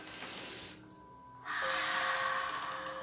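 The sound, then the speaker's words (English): Soft, slow breaths in and out are drawn during a guided meditation, faint and unhurried over a steady background tone. “Close your eyes and take a deep breath. Inhale and exhale. Another one.”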